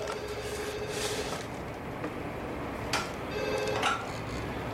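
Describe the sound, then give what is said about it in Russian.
A telephone rings in a few faint tonal bursts over a steady background hiss, with no voices. “Это звонит Миранда.”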